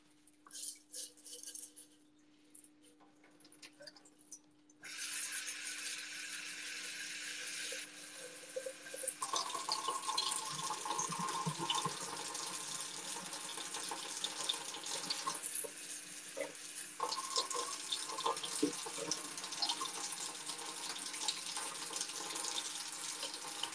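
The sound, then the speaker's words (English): Water running from a tap over pebbles being rinsed for a terrarium: a quiet low hum at first, then a steady, full rushing splash that starts abruptly and continues unbroken to the end. “Okay, now that I've rinsed these rocks”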